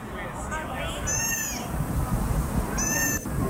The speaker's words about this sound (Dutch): Ja, dat is ook zo'n geluidje, een beetje miauwend. Dat kunnen ze ook maken.